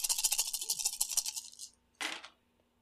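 Dice rattle as they are rolled in a Cthulhu Wushu tabletop game: a sustained, busy clatter of many dice lasting well over a second, a short pause, then a brief, sharp second burst of clacking.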